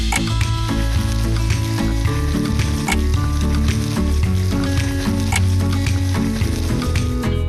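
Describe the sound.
Food frying in salad oil in a pan: a loud, steady, dense sizzle with crackling pops throughout, heard alone with no talk.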